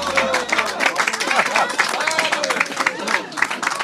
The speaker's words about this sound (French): vous entendez les applaudissements du public ici à Porrentruy.